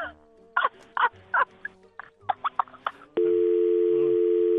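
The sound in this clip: A telephone dial tone sounds after the caller hangs up: a steady, unbroken tone that follows several short, choppy bursts of sound on the line.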